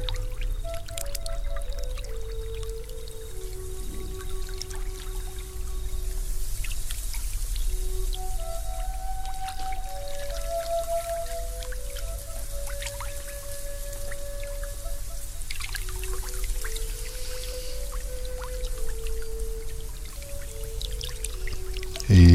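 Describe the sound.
Lagoon water flowing and trickling in a continuous soft wash of drips and pouring, with gentle sustained melodic tones layered over it.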